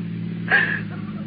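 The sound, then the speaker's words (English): A car engine left running while stopped for gas at a filling station, giving a steady low idling hum with a short brighter sound in the middle. “He left the motor running. The exhaust fumes came into the trunk.”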